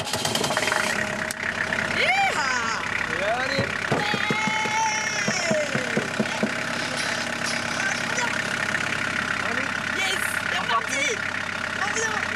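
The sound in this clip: A motorhome engine idles after a garage fixed a short circuit by swapping two wires. It gives a steady rough mechanical rumble with a knocking edge throughout, while several people talk loudly over it.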